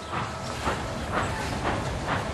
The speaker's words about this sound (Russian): Бегут колеса, пыхтит паровоз.